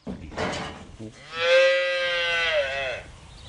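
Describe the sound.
A dairy cow on a farm where new-season calves are being born gives one long, low, droning moo that holds steady for nearly two seconds before fading.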